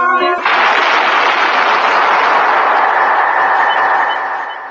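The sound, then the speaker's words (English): A gunshot in a sewer beneath a city, a sharp burst of harsh noise that cuts in abruptly and rings on loud and steady for several seconds before slowly fading. “That was the shot that killed Harry Lyme.”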